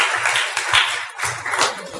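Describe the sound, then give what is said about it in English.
Hand clapping for graduates: scattered, irregular claps from a small group, moderately loud, coming in uneven bursts with brief lulls between. “I think they deserve a hand clap.”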